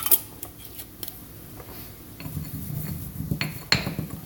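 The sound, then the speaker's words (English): Seasoned food being mixed together with oregano gives off faint, irregular rubbing and scraping sounds with a few light utensil clicks, growing busier in the second half and ending on a sharper clink. “All right, add in a little bit of the oregano. Mix it all together.”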